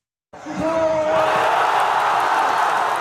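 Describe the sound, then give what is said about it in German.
Thousands of football fans at a public viewing in Gaza City roar as Egypt takes the lead against Argentina in a World Cup match. The loud cheering bursts in suddenly with shouts and whoops and stays at full volume. “Das ist der Sound der Hoffnung mitten im Gazastreifen. Ägypten geht im WM-Spiel gegen Argentinien in Führung. Tausende Fußballfans beim Public Viewing in Gazastadt sind völlig aus dem Häuschen.”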